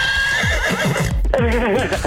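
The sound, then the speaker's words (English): A horse whinnies loudly through the whole clip, one long neigh with a wavering, shaky pitch. “Horses.”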